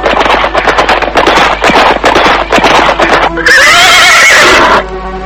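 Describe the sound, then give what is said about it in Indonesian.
Horses gallop and neigh as riders arrive after riding along the foothills of a mountain: about three seconds of rapid, loud hoofbeats, followed by a long, high, wavering whinny that ends abruptly. “Kami berkuda di sepanjang kaki Gunung Lejar sampai ke bagian selatan.”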